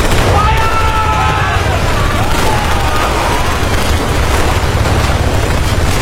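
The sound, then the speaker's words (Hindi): A battle erupts as Indian soldiers open fire on approaching Chinese troops with light machine guns, rifles, mortars and grenades. The sound is a dense, continuous roar of booms and cracks, with thin whistling tones near the start. “भारतीय सैनिकों ने उन पर light machine gun, rifles, mortar और grenade से हमला कर दिया”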